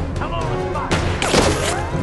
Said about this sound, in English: He fires his gun at Little Bear, who shoots an arrow at him.